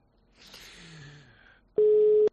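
A telephone busy tone after a call is cut off: one loud, steady, mid-pitched beep near the end, preceded by faint, fading tonal sounds.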